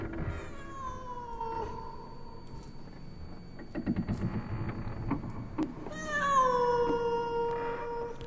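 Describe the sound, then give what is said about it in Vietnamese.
A cat yowls eerily on a porch at night: a few long, wavering meows with drawn-out falling and rising tones. The cries stand alone, with a quieter stretch of low rustling between them. “có con mèo không biết ở đâu xuất hiện, cứ đứng ở ngoài hiên kêu lên những tiếng ghê rợn thảm thiết.”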